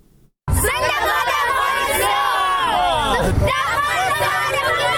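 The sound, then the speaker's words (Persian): Afghan children chant slogans at a celebration of Afghanistan's 98th Independence Day in Kabul. After a brief silence, a loud burst of many young voices shouting and chanting rises, mixed with babble and whoops, continuing without a break. “این صدای کودکان افغان است که به خاطر تجلیل از جشن استقلال استرداد افغانستان شعار سر می دهند.”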